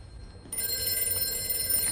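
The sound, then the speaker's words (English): A telephone bell starts ringing after a brief quiet moment and keeps up a continuous bright, trilling ring to the end. “Just thinking about this, though. Oh, that's the phone.”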